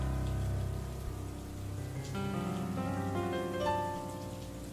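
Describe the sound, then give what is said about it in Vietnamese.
Heavy rain falls in a steady, dense hiss with a constant roar underneath and no distinct breaks. “Bên ngoài chỉ có tiếng mưa, thỉnh thoảng có tiếng sấm đì đùng.”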